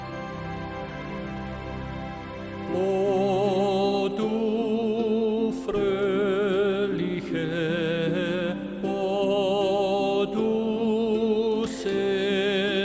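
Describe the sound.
The Sicilian hymn O Sanctissima sung by a single male voice with wide vibrato over instrumental accompaniment; it starts softer, then swells to a steady, full level after a few seconds.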